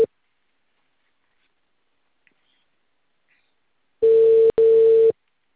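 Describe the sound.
Telephone tone of an outgoing call: a steady mid-pitched electronic tone sounds as two back-to-back bursts with a tiny gap between them, after several seconds of near silence.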